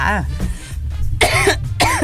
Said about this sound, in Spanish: Ay, me dio la tos.